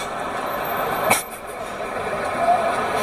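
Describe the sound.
Steady engine rumble of a coach bus, broken by one brief, sharp air-brake hiss, with no talk over it.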